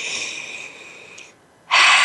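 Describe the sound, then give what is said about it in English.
A long, deep breath drawn in as a steady airy hiss, then a brief silence. A sudden louder rush of breath follows at the end. “And it only takes 30 seconds, a minute. And then breathe it in.”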